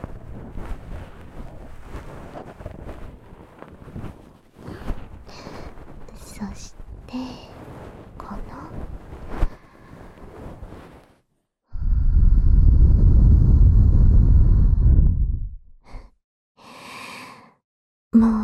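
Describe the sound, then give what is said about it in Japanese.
Soft fluffy brushing of a bonten ear pick's fluff tickling the ear: a sustained, muffled rustle that swells loudly for a few seconds after gentle whispering, followed by a shorter brushing burst near the end. “この梵天が耳をくすぐる音、とっても好きなんですけどね。”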